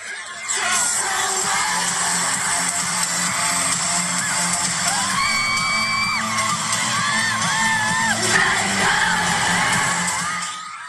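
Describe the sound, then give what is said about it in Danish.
A concert crowd of about 70,000 people sings and shouts back in unison. The roar is dense and continuous throughout, and sung melodic lines rise clearly out of the mass midway through. “Det er 70.000 mennesker, som synger tilbage igen, præcis når de skal synge.”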